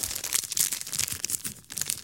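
A crinkly plastic packet of Foxy's Crunch Creams biscuits is opened with many quick crackling and rustling bursts in an irregular rhythm, fairly loud and heard alone.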